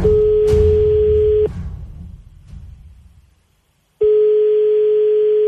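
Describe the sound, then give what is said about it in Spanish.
Ringing tone of an outgoing telephone call: two long, steady, mid-pitched tones separated by a pause of about two and a half seconds, with faint hiss in between. “llamando a Armando, esto es La he liado parda en Megastar.”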